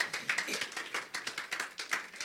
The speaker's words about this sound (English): Clap for the Lord Jesus.